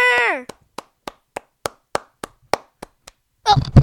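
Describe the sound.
Slow, evenly spaced single handclaps welcome a guest into a studio. The sharp, separate claps run in a steady series between brief voices at the start and the end.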